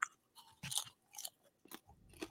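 Crunchy chewing of gourmet popcorn comes in several soft, irregular bursts of crisp crackle, quiet and spaced apart, with no talk over them.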